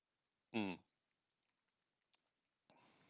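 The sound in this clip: Soft keyboard typing as notes are written down, a few faint scattered clicks sitting between two short bursts of talk.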